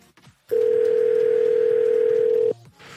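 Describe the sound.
Telephone dial tone after a call is hung up, a single loud, steady, pure hum lasting about two seconds that starts and stops abruptly, with faint clicks before and after.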